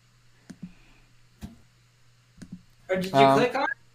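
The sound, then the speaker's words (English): Clicking of a computer button: a few sharp, short clicks spaced about a second apart, some in quick pairs, followed by a person talking. “do you want me to click the button to generate the next one?”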